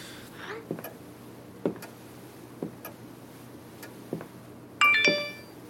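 Phone message notification: a short bright chime of stacked tonal pings comes after a few soft, spaced clicks over a quiet background.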